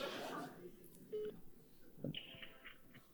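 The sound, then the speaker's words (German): Telephone keypad tones as a number is dialed: a few short, clear electronic beeps in an uneven sequence, each at a different pitch, standing out from a soft background. “Das ist meine Nummer, mit der wir da anrufen.”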